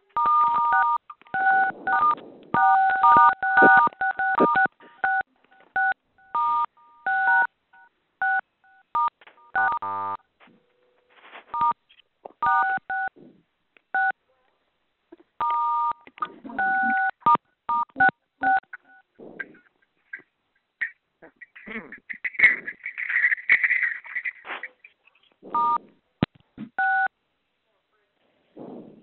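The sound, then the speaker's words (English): Telephone keypad tones as conference callers press star 6 to mute: many short, irregular DTMF beeps, some in quick clusters and some overlapping, with faint voices in the gaps. “Let us try that. Okay. All of you hit star 6 and we'll see if that'll work.”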